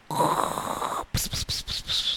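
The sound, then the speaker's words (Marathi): Snoring: one long, rasping snore, then four short snorting breaths in quick succession, fairly loud and alone. “घोरायला लागले.”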